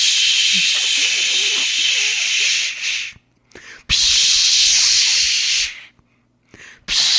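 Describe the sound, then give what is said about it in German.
A voice imitates a spray can with a long nozzle spraying into a bee nest: two long, loud, breathy hisses of about three seconds each, separated by brief pauses and followed by a shorter hiss. “eine Spraydose mit so einem langen Rüssel. Und dann ist er hingegangen, hat diesen Rüssel ins Nest gemacht und wirklich so,”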